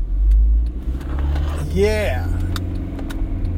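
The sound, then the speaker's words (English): Steady low rumble of a car driving on the road home from work, heard from inside the vehicle. A continuous even drone runs throughout, with a brief higher squeaky tone in the middle. “We're driving. We're driving home.”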